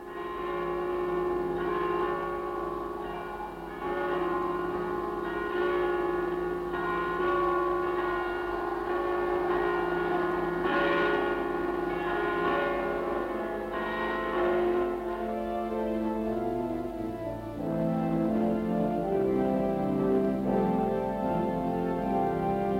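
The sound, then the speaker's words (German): Church bells peal at the garrison church in Potsdam, a dense and sustained wash of overlapping tolls at an even loudness, with no voices. “Und in Potsdam läuteten die Glocken. In der Potsdamer Garnisonkirche, in der Paul von Hindenburg Adolf Hitler das Reich anvertraute.”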